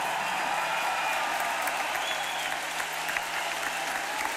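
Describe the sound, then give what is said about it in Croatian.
A concert audience applauds in a dense, continuous roar of clapping that stays loud and even from start to finish. “Jedan veliki aplauz za onu staru generaciju koja još jest tu.”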